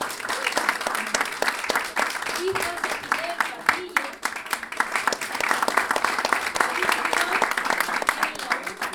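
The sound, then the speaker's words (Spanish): An audience at an improvised-verse show at a jazz school breaks into sustained applause: dense, crackling clapping that holds a steady loudness for the whole stretch. “Aplausos.”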